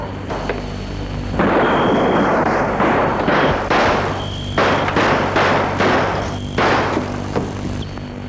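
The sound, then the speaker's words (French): Rifle gunshots boom out as several heavy, loud blasts with short gaps between them, each a broad crashing burst. “Il a tiré sur elle.”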